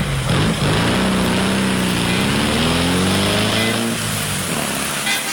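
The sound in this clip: A tuk-tuk auto rickshaw engine runs with a steady buzzing drone that stays loud and even from start to finish.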